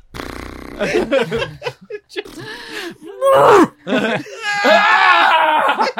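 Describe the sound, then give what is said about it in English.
A person performs a forced, exaggerated yawn: several breathy, groaning vocal bursts that build into a long, drawn-out moan, with snickering laughter mixed in. “Forced yawn sound like? No! It sounds like this.”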